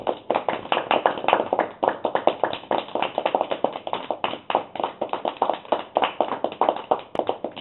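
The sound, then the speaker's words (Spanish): Applause for a memorial tribute: dense, steady hand clapping that continues without a break for several seconds, somewhat thin and muffled, with no voices. “Claro que sí, con aplausos porque se los merece”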